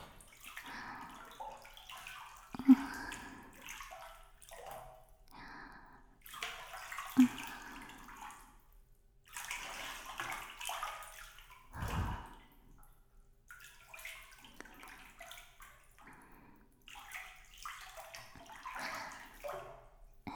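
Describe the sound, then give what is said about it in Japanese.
Hot bathwater moves and sloshes in a bath in irregular splashy bursts and soft trickles, with a couple of sharper knocks along the way, moderately quiet throughout. “そろそろお湯から上がりましょうか。最後に肩までお湯に浸かって”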